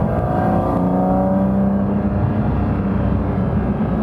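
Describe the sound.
Naturally aspirated car engine with six individual throttle bodies, roaring loudly and continuously at high revs. A sustained, gritty drone carries a held harmonic tone throughout, with no talk.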